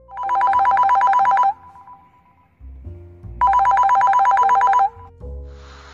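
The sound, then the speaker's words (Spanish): A telephone bell rings with an incoming call: two long, bright trilling rings separated by a pause, loud and unaccompanied by speech. “Tenemos una llamada en línea.”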